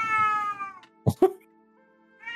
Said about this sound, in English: Oh, hold on, my cat would like to say a couple words.